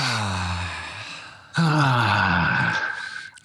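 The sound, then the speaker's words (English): Voiced breathing exercise for vocal warm-up: a person takes a deep breath and lets it out as a sighing, moaning sound with clear harmonics, heard alone without talk. “We're going to breathe deeply in. If you like, you can raise your arms, and then we're going to kind of moan out. So like that.”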